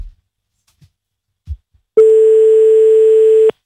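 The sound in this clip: Telephone ring tone on an incoming call line: one steady, mid-pitched electronic tone lasting about a second and a half. It is loud and stands alone after a couple of faint low thumps.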